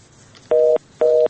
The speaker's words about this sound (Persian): فکر میکنم تماسشون قطع شد.